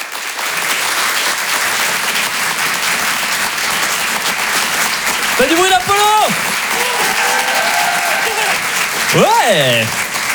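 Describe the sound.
A comedy show audience applauds a comedian coming on stage, with dense, steady clapping throughout and a few shouts and whoops rising above it.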